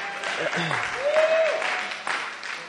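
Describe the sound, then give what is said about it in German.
An audience at a religious healing gathering claps in a brief, moderately loud burst that swells and then eases. A voice speaks over the clapping. “wow, ich bin so, euer Klatsch macht mich richtig voll.”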